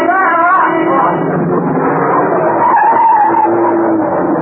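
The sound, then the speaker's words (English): A van skids on a wet road while swerving round a corner, a loud, sustained tire screech that holds for the whole stretch without a break. “The van, coming round the corner, skidded as it tried to avoid him.”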